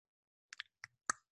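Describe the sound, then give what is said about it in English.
A few faint computer mouse clicks, short and isolated, each standing alone in near silence. “As we move into Tuesday, let's click over the day here.”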